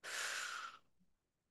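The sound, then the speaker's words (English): A single slow exhale during a breathing exercise: a soft, airy whoosh of breath that holds steady for under a second, then stops abruptly into near silence. “directing your energy with your breath into that specific space, and then breathe out.”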